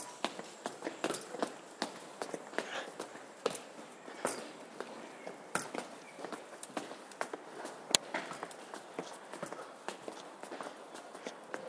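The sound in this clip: A dog climbing stairs, its many quick, irregular footfalls making sharp taps with a few louder thumps, steady throughout.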